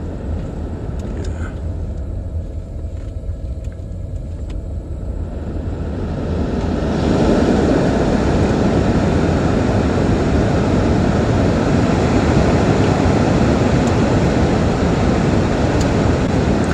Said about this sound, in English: Okay, let me see if I can talk to you while I'm driving along.